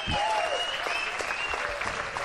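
Audience applause rewarding a performer on stage: dense, steady clapping that stays loud for the whole stretch, with faint whistle-like tones running above it.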